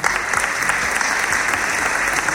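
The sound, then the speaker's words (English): A round of applause greets a speaker introduced before his speech, a loud, dense wash of clapping that holds steady through the whole short stretch. “applause.”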